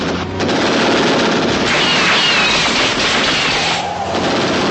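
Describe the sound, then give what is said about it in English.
Submachine gun fired by an elderly woman gatekeeper in a film scene, a loud, continuous rattling burst that barely pauses for nearly the whole clip. “The little old lady gatekeeper is played by actress Varley Thomas, and this touch of having her fire the submachine gun”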